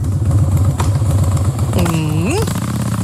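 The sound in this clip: Harley-Davidson motorcycle engine at a Harley Days event in Dresden: a loud, deep, loping idle with uneven pulsing beats that persists throughout.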